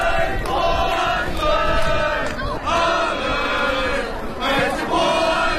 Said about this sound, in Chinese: 熟悉的北京国安加油声，却并非为施密特带领的一线队庆祝联赛三连胜。